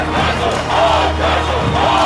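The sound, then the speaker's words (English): Crowd shouting in a packed street, a loud, continuous roar of many voices that swells and ebbs slightly without dying down. “A wave of euphoria and commitment swept over them, and soon they were stamping and shouting.”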